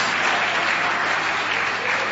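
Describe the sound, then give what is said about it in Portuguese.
An audience claps in praise to God at a church service, dense and steady applause that stays loud and even throughout. “As palmas de glória a Deus e o aleluia são bem fortes, bem fortes para Jesus.”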